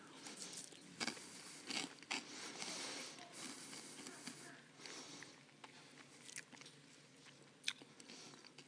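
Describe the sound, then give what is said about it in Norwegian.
Congregants chew communion bread at a church service, making faint, irregular crunching and moist clicking sounds with scattered sharper bites and no talking. “Så I Jesu navn så spiser vi alle av dette brødet.”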